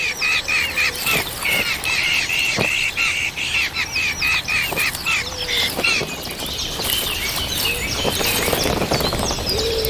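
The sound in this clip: Busy chirping and squawking of adult birds feeding insects to chicks in the nest: a loud, continuous tangle of sharp, high calls and tweets that overlap throughout, with no quiet gaps.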